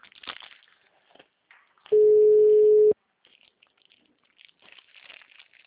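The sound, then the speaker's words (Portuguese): A ringback tone from an unanswered phone call sounds once as a single steady, mid-pitched beep lasting about a second, with faint rustling and handling noise before and after it. “Tô fazendo aqui, mas é que não tá atendendo mesmo.”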